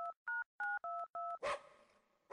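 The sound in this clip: Telephone keypad tones as a number is dialed: five crisp, evenly spaced beeps, then a brief burst of noise.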